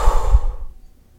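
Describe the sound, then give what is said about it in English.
A deep breath is exhaled during guided meditation breathing, a soft, airy rush of air lasting about half a second before tapering off into near silence. “Take a deep inhale, fill your belly up. Exhale, let it go.”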